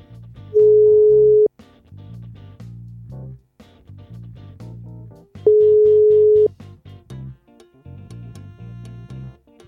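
A telephone tone sounds while a call is being placed, two long, steady beeps of about a second each, separated by a pause, over background music.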